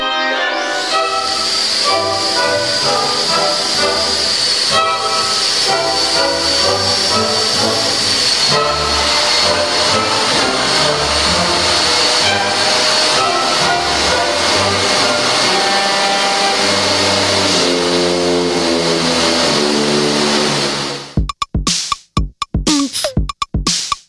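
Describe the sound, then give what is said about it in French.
A 1953 concerto for three vacuum cleaners, floor polishers and orchestra: loud sustained orchestral chords over a steady droning hiss of the machines, breaking off abruptly near the end into a few scattered brief sounds. “C'est le concerto pour trois aspirateurs, cireuses et orchestre de Malcolm Arnold et ça date de 1953.”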